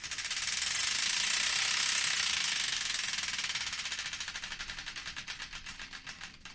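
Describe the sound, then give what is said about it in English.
A prize wheel spins with a fast, loud stream of ratcheting clicks that gradually spaces out and softens as the wheel slows toward a stop. “The Wheel of Destiny is here ready to be spun, so without further ado, let's spin it and find out the song that's kicking things off.”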